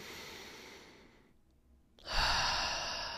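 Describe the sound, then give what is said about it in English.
A person taking a deep breath during a breathing exercise: long, airy breath noise broken by a short pause, with the later part louder and fuller. “So when you breathe, so just go ahead and breathe in”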